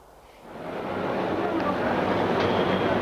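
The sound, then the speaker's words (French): A train at a railway station gives a steady, broad rumbling roar that swells after the first half second, then holds loud and even to the end. “Il va prendre son train à la gare de Lapardieu.”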